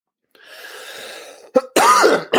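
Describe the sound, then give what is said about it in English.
A throat clearing: a soft, hissy intake of air, then a sharp catch and a loud, guttural, voiced rasp that wavers in pitch, ending with a brief final rasp. “Clear that throat.”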